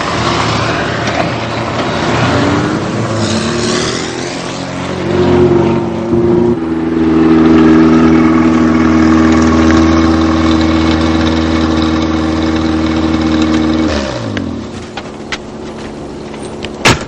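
A car engine idling with a steady mid-pitched hum as the car arrives, shifting in tone partway through and settling lower near the end. No voices are heard.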